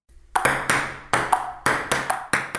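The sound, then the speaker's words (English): A ping pong ball is hit back and forth in a quick rally. It makes a rapid series of sharp, bright, ringing taps with short irregular gaps between strikes. “That sound is... Ping pong!”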